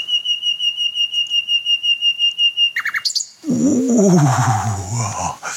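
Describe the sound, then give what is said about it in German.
A slender nocturnal bird with reddish upperparts, pale underside and large black eyes gives a steady, high whistling trill, rapidly pulsing for about three seconds, then stopping abruptly as a louder, lower sound takes over. “Also es ist wirklich ein wunderschöner Vogel.”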